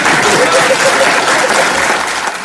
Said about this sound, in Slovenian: To hudomušno vprašanje svetega očeta je sprožilo močan aplavz v sinodalni dvorani.